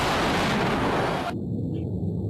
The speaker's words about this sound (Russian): Здесь повстанцы ведут огонь по правительственным силам из орудия, привезенного на автомобиле.